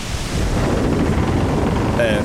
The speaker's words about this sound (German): Und als wir da gefilmt haben, da gab es einen krassen Sturm. Wirklich der krasseste Sturm der Welt.